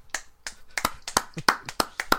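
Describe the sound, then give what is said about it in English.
A quick run of sharp, crisp hand claps, several fairly faint slaps in an uneven rhythm with no talk over them. “I'm giving you a clap for that.”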